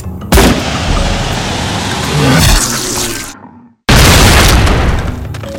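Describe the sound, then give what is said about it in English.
A .30-08 rifle firing an explosive shell gives a sharp, loud blast and then a long, roaring rumble. The rumble cuts to brief silence, and a second heavy burst follows. “Fire! Roxon brought his .30-08 to bear.”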